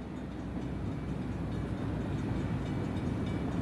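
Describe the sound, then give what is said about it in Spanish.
A train travelling through a tunnel gives a steady, dense, low roaring rumble that continues evenly throughout, without distinct clacks, horn or voices. “Pues lo cierto es que ir en tren todo el rato por un túnel no tiene demasiada gracia.”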